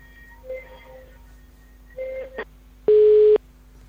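A telephone line tone sounds as a phone-in call connects. A couple of faint tones lead to a single loud, steady beep that cuts off sharply at the end.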